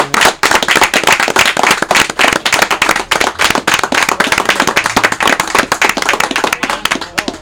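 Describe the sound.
Audience applause at a live public event in Tonalá, dense loud clapping that runs steadily through the whole stretch with no break and no talk over it.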